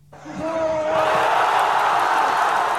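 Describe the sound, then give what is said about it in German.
Thousands of football fans cheer at a public viewing in Gaza City as Egypt goes ahead against Argentina in a World Cup match, a loud, dense crowd roar that swells within half a second and holds steady. “Das ist der Sound der Hoffnung mitten im Gazastreifen. Ägypten geht im WM-Spiel gegen Argentinien in Führung. Tausende Fußballfans beim Public Viewing in Gaza-Stadt sind völlig aus dem Häuschen.”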